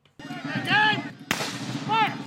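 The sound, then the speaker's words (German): Cannon blasts ring out at a historical battle reenactment in a national park clearing: two sharp booms about a second apart, with voices heard over the rumble that follows each one. “Kanonenschläge donnern über die Lichtung im Nationalpark von Vincennes, Indiana. Pulverdampf verschleiert den Zuschauern teilweise die Sicht.”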